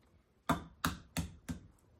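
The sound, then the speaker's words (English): An egg is cracked against the side of a bowl with four sharp, evenly spaced taps, each a crisp knock that quickly fades. “I hit it on the side of the bowl and then, can you see it? Open it, and out came the egg.”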